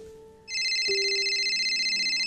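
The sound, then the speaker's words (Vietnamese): A telephone rings: an electronic ringtone begins abruptly and holds a bright, high, rapidly warbling tone at a loud, even level to the end, with a faint low hum beneath. “Nghe tiếng chuông điện thoại”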